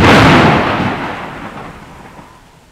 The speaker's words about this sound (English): On Wednesday, it's stormy.